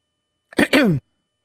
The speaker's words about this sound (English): Before the throat clear, you could have gone and then done that.